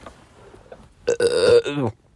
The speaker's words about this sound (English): I burped and threw up in my mouth.